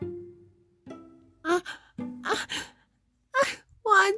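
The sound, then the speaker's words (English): Sobbing and wailing, voiced by a reader imitating a little girl crying in disappointment over a toy: a few halting, moaning wails broken by gasping breaths, with pauses between them. “little Mary covered her face with her arm and began to sob grievously”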